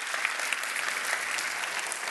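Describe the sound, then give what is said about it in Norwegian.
Dense audience applause for a group of boys, a steady wash of many hands clapping that holds at an even level for the whole stretch, with no voices standing out. “skal vi gi dem en stor applaus”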